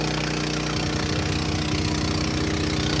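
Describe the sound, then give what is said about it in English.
A pump cavitating gives a loud, steady engine-like drone. A rough, rapidly pulsing low rumble sets in after the first second and runs unbroken to the end. “I don't like cavitating a pump.”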